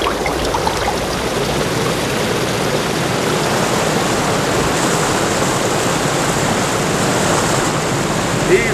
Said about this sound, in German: So trieben sie eine Weile mit der Strömung durch die nächtliche Drachenstadt.